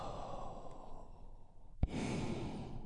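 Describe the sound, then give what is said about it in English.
A deep breath is drawn in and released as a long, soft, airy sigh during a guided relaxation exercise. It is quiet over a steady background hiss, with a brief click near the middle. “taking a big, deep, healing breath all together. Here we go. And release.”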